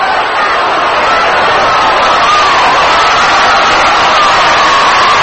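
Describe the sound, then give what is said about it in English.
A baseball stadium crowd at a Dodgers game applauds a batter stepping up. Loud, continuous crowd noise holds at an even level throughout, a broad, steady wash of cheering and clapping. “Luke Snyder gets a round of applause in all these many days.”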